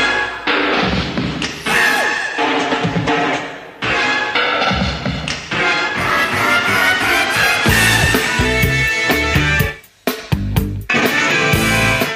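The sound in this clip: Instrumental interlude from a pop song: a dense, loud band passage broken by abrupt stabs and hard drum hits, with a sudden brief dropout near the end before the full sound crashes back in.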